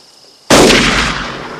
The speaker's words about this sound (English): What the hell's he shooting at over there?